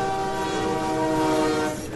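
A train at a station gives a steady rail rumble, overlaid with sustained tonal sounds like a horn or whistle. The sound stays loud throughout and drops slightly near the end.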